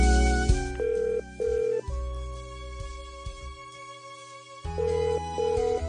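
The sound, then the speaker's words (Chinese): Electronic telephone ringing: two short ring bursts, a pause, then another pair of bursts, with steady tones sustained underneath. “刘馒头真系即刻攞起个电话打俾佢阿妈”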